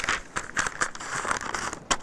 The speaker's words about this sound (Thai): ตัดแยกก่อนนะคะเพื่อง่ายนะคะต่อการที่เราจะเผื่อตะเข็บตัดออกมาก่อนนะคะ